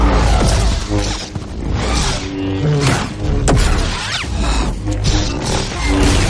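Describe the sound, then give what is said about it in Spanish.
Lightsaber strikes in a duel in the 2015 Star Wars film, with loud swooshes, crackling clashes and impacts layered densely together, continuous and intense throughout. “Esa espada láser me pertenece. Ven a por ella. Ataca.”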